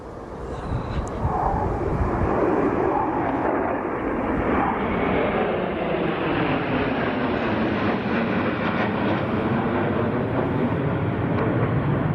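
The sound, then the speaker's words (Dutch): Dutch F-16 fighter jets flying over Friesland on a farewell flight from their home air base give a loud, continuous, broad jet roar that fills the whole stretch, steady throughout with a slowly shifting tone. “Nadat de vliegbasis Leeuwarden jarenlang als thuisbasis heeft gediend voor de Nederlandse F-16's, namen de straaljagers afgelopen week afscheid van de provincie door twee keer de Elfstedentocht te”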